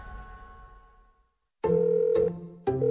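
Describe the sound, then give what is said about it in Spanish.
Telephone ringing for a prepaid calling-card call to El Salvador. After an earlier sound fades out and a short silence, a steady electronic ring sounds, breaks off briefly, then starts again. “¿Hola? ¡Feliz Día de las Madres, abuela! Recuerde que la estoy llamando a El Salvador con una tarjeta telefónica prepagada, ¿ok?”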